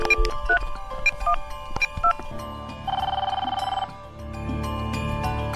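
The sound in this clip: A telephone call is dialed to connect callers: a quick series of keypad beeps sounds, then a buzzing ring tone plays while a steady line hum continues underneath.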